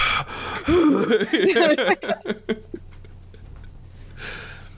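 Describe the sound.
A voice imitates loud, heavy breathing during an intense video game: a burst of forceful, partly voiced huffs and gasping pants that shorten and fade, followed by quieter breathy noise.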